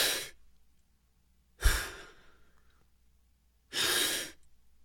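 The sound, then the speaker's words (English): Exaggerated deep breaths taken as a breathing exercise in front of a mirror: three loud, airy, rushing breaths separated by quiet pauses, each lasting well under a second. “And then you're supposed to take really exaggerated breaths.”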